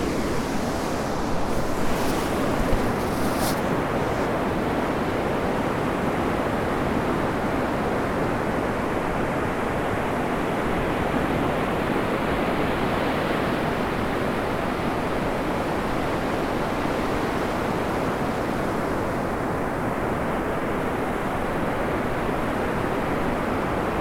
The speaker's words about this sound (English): I've just dropped down onto the beach on the way to St Michael's Mount and Marazion, or Marazion